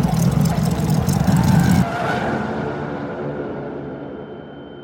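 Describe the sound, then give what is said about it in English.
A brand-new car's wheels lose traction on a turn and skid on the road: a loud, noisy roar for about two seconds, then an abrupt drop to a lower, fading rumble. “You stay the course when, all of a sudden, your wheels lose traction with the road.”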